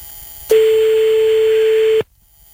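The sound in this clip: A telephone call attempt sounds as one steady, mid-pitched tone that lasts about a second and a half, then cuts off into near silence.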